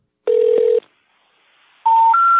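Electronic telephone tones: one long steady tone, then a pause, then two shorter, higher tones stepping upward in pitch, loud and clean with no voices.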